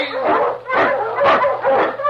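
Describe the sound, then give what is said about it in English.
Eskimo lead sled dog barking on a snowy trail: four loud, evenly spaced barks with whining yips, alone with no talk. “The Wonder Dog King, swiftest and strongest of Eskimo lead dogs, blazes the trail through storm and snow for Sergeant Preston as he meets the Challenge of the Yukon.”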